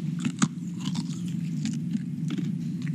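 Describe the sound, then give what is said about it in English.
Chewing on a taste of trehalose sugar, a few sharp crunchy bites and softer grinding chews over a low steady hum. “And he even gave me a taste of the trehalose.”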